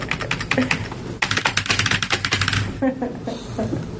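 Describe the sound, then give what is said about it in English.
Rapid typing on a computer keyboard, many quick clicks and taps in a dense, uneven rhythm with a brief pause partway through. “This keyboard sucks.”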